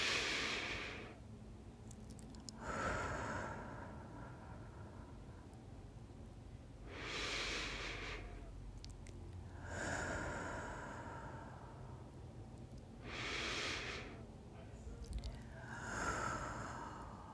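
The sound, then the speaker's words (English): Slow, deep breaths drawn by a single person during a guided prayer session. Several long, soft rushes of air rise and fade in an unhurried, even rhythm, with quiet pauses between them and no talking. “Let's begin with a few deep breaths.”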